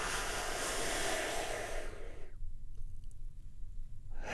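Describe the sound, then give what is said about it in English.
A big, deep breath taken during a guided relaxation exercise, heard as a long, soft, airy hiss lasting about two seconds that fades away, followed by near silence. “We do this by taking a big, deep, healing breath right now. Here we go.”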